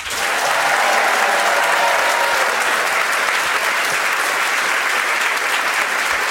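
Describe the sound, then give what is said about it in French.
A studio audience at a television game show applauds loudly to welcome two young contestants. The dense, even clapping holds steady from start to finish. “pour jouer avec nous, deux jeunes sélectionnés juste avant le début de l'émission, j'ai le plaisir de vous les présenter et vous allez les accueillir dans une ambiance de folie.”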